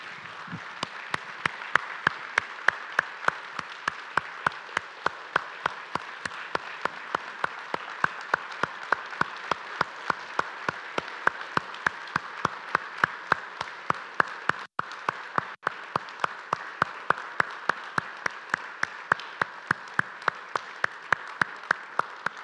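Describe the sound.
A church audience claps to welcome home returning missionaries. The clapping is steady and evenly timed at a brisk beat and continues without a break for the whole stretch.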